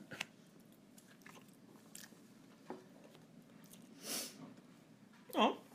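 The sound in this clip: Someone biting into food and chewing: faint, crunchy, moist bites with small mouth noises. Two more distinct crunches stand out toward the end, and a voice is heard briefly at the close.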